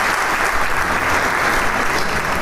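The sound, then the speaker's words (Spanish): Deafening applause from a concert audience after a Camerata de Coahuila performance, a dense, loud, unbroken roar of clapping that holds steady throughout with no voices standing out. “El aplauso es ensordecedor.”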